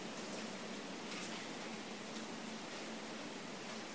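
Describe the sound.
Rain falling as a steady, even hiss of fine drops, soft and unbroken throughout with no distinct splashes or voices.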